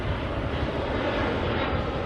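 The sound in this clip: An airplane takes off with a steady, dense roar of engine noise that holds level and loud throughout.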